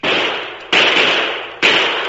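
Three gunshots crack in quick succession, each a loud, sharp burst that trails off slowly, spaced less than a second apart with no voices.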